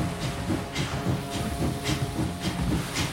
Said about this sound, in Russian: Паровоз уезжает, пуская пар.